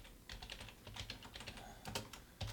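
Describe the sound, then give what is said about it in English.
Typing on a computer keyboard: many quick, irregular keystrokes, fairly faint, with no voices. “Let's type it in.”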